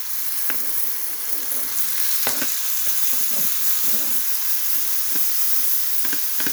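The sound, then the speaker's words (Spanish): Tomato poured into onion already heating in a pan sizzles and fries, a steady loud hiss with scattered crackles and pops throughout, with no talk. “Como ya está calentándose nuestra cebollita. Y vertimos nuestro tomate.”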